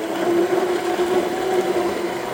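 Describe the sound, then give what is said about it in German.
Steady whirring drone of a large electric immersion blender mixing homemade hot cranberry sauce, a continuous even motor hum with no pauses and no voices. “Mit einem großen elektrischen Rührstab arbeitet der 53-Jährige mit Vollbart und lachenden Augen bei unserem Treffen an seiner selbstgemachten Hot Cranberry Cracker Sauce.”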